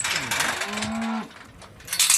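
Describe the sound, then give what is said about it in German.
A cow lowing on the pasture of an organic farm in Weißingen, Dillingen district: one drawn-out moo with a slight bend in pitch, over constant rustling noise that swells again at the end. “Die Kühe vom Biohof Speinle in Weißingen im Landkreis Dillingen dürfen jeden Tag auf die Weide.”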